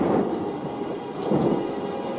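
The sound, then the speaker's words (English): A deep peal of thunder rumbles over steady rain, loud and continuous, easing a little midway and then swelling again toward the end. “A bolt of white lightning, a great peal of thunder.”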